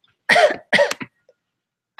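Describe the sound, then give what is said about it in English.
Coughing from a person: a few harsh, fairly loud bursts in quick succession, then a short pause and the start of another cough, with no talk. “Do you have a cough there”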